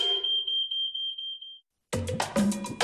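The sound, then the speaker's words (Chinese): A standalone household smoke alarm, a small white box that senses smoke, gives a shrill, high electronic beep in rapid repeated pulses. After a brief silence, music starts. “它可不睡觉，24小时站岗，发生火灾快速感应烟雾。小白盒预警早，效果好，安装方便，靠谱又省心。”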